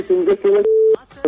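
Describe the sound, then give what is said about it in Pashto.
A telephone tone after a caller's connection is cut off: a steady mid-pitched tone sounding in several stretches, longest near the middle, with voice-like sounds mixed in around it. “هلو. فکر کوم چې اړیکه هم پرې شوله. له بده مرغه اړیکه پرې شوله”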